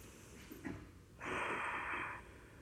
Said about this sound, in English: So let's count to 7 breaths. Just inhale and exhale, breathe normally.